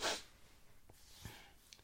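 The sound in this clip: Sniffing through a blocked nose opens with a loud, breathy, congested snort, followed by a few fainter short sniffs.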